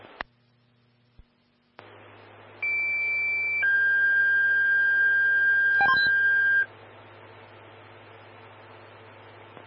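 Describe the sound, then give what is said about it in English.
Fire dispatch alarm tones come over a radio channel in a sequence of two long, steady pure beeps: a higher tone for about a second, then a lower tone held for about three seconds, with radio hiss and static before and after. “stand by for tones on an alarm.”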